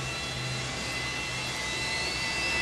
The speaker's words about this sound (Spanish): Como que el avión tomaba vuelo.